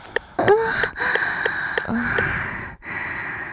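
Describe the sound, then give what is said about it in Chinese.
Heavy, deep breathing with gasps for air, as a person pants to recover. It comes as a series of wheezy, rasping inhalations and exhalations with short pauses between them. There are no spoken words. “好了好了，大口大口的喘气，逐渐让自己恢复到正常的状态吧。”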